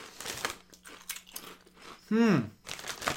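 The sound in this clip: Sweet and spicy corn snacks: the package crinkles open, then comes loud crunching as they are eaten, with people talking and one drawn-out vocal exclamation between the crinkles.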